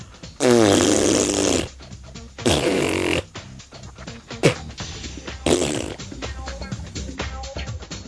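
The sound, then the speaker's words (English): Spitting noises made with the mouth: three long, loud sputtering bursts, the first the longest, with smaller clicks and splutters in the gaps between them. “Did you like the spitting? That's how I feel.”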